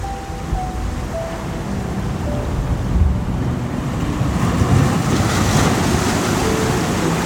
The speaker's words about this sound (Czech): Přijmej každou vlnu tohoto oceánu.